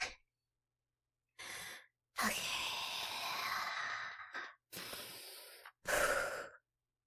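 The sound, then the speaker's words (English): Heavy breathing after exertion: several loud gasping breaths and sighs separated by silent gaps, including one long drawn-out exhale, with no talk. “Oh my God, I need to breathe!”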